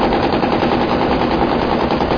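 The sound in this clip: Rapid, continuous gunfire from a heavy, compact 9mm Luger gun firing full metal jacket rounds: a loud, dense, unbroken roar of shots with no gaps and no talk.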